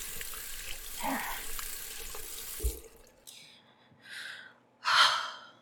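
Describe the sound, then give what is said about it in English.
Water runs steadily from a tap as hands are washed under it. The rushing, hissing stream lasts about three seconds and then stops, followed by a few sharp, audible breaths or gasps. “Daddy would want me to wash my hands.”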